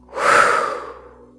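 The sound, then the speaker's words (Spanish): A slow breath taken during a guided relaxation exercise, in through the nose and out through the mouth. One long, soft, breathy rush swells and fades over about a second, alone with no talk. “inhala nariz, exhala boca. Inhala nariz, exhala boca.”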